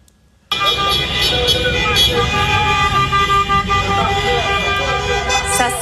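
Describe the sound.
Dozens of very loud vehicles on a cul-de-sac street in Victoriaville. The roar of engines bursts in after a brief quiet moment and holds at a high, steady level, with horn tones mixed through the din.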